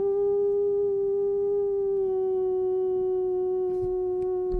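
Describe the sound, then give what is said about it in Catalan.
A wolf howls in one long, loud, sustained tone that holds nearly steady, dips slightly in pitch partway through, and is followed by a few faint clicks near the end. “Fas l'odol del llop, no, al final?”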